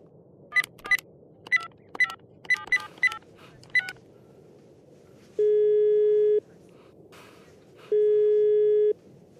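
Telephone keypad tones beep in a quick run of short blips as a number is dialed, then two long, steady ringing tones sound with a pause between them while the call goes unanswered. No voices are heard.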